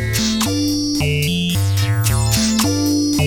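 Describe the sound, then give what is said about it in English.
Modular synthesizer with a runaway oscillator patched by cable and offset adjusted to change chords on the fly: sustained electronic tones stepping abruptly between pitches many times, with bright buzzy upper partials, no voices. “And then I ran another cable from the molt into the runaway oscillator. And then I adjusted the offset, and so now we can kind of change chords on the fly. And it sounds something like this.”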